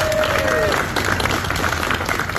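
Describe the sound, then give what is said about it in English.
Heartfelt applause as a firefighter burned in a lumber mill explosion and fire leaves Maine Medical Center, with steady clapping throughout. “A firefighter injured in the Searsmont mill explosion and fire last month left the hospital today to heartfelt applause.”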